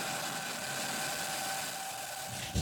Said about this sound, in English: Two, one, ignition, engines full power, and liftoff.